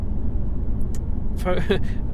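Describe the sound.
Steady low engine and road rumble from inside an ordinary passenger car on the move, a constant dense drone, with a short stretch of people talking over it.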